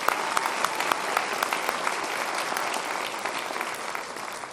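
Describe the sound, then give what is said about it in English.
An audience at a university gathering applauds the library faculty as they stand, with dense, continuous clapping at a moderate level throughout. “The rest of the library faculty, please stand. Let's give these folks a hand.”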